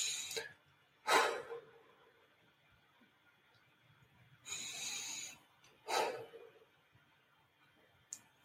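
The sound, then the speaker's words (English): Slow, deep breaths come through softly, with a few airy breaths separated by long quiet gaps and no talking. “I just took 2 breaths”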